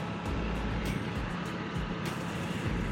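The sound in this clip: Engine and road noise from a motorcycle with low handlebars riding down a road, a steady, even rumble with no talking.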